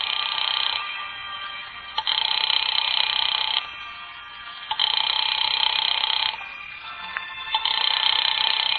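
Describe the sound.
A house telephone rings on and on unanswered, calling an apartment. Long bursts of bright electronic ringing come in a steady cycle, separated by short silent pauses, and no one picks up.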